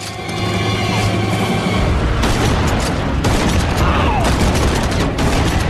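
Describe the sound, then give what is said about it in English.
Gunfire from a pump-action shotgun in a film action scene where soldiers are being shot: a dense, loud, unbroken barrage of booming blasts and mechanical clatter. “Whistler taps in another auto-destruct code, loads his pump-action shotgun to the maximum, and goes on the rampage, killing soldiers one after the other”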